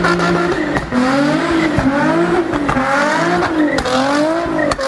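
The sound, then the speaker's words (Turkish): Engine revving and tire squeal from a new sports car drifting in an industrial estate in Antakya, Hatay. It is loud and continuous, with the engine note rising and falling repeatedly as the tires squeal. “2 ay önce 3,5 milyon liraya aldığı yeni spor arabasıyla gezintiye çıktı. Sanayi sitesinde drift atarken kameralara yakalandı.”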